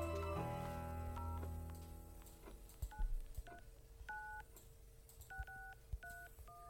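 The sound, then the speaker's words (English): Touch-tone dialing of an 800 toll-free phone number: a run of short, bright dual-tone beeps, one per key press, evenly spaced with small clicks between them. “So let's dial it ourselves and see if we can get through to it.”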